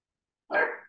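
A corgi gives a single short, abrupt bark with nothing before or after it.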